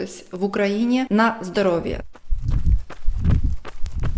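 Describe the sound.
Footsteps of a slow, steady jog on an asphalt forest path land as soft, low thuds in an even rhythm, after a brief stretch of a person's voice at the start.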